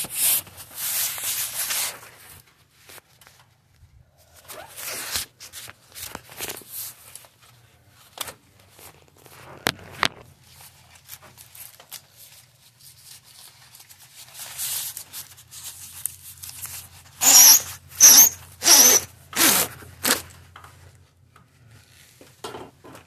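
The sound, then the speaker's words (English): Cardboard packaging being unwrapped from light bulbs at Wencor: irregular bursts of rustling and scraping separated by quiet gaps, ending in a quick run of louder scrapes. “So now I'm going to take three bulbs out and undo the cardboard around them.”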